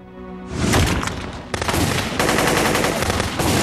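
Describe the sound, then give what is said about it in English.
Rapid gunfire erupts as a gunman opens fire during a tense standoff with police marksmen: dense, crackling bursts of many shots start abruptly and continue loudly, with a sharp fresh volley partway through. “Police marksmen aim their weapons at them. There is a tense standoff. Then Bryant opens fire.”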